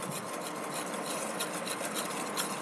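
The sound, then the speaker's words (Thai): Stirring of titanium dioxide into white oil: a steady, continuous rasping and scraping with an even loudness throughout, no voices. “นี่ก็จะเป็นน้ำมันสีขาวแล้วนะคะใส่ตัวไทเทเนียมแล้วก็คนให้กระจายตัวกันดี”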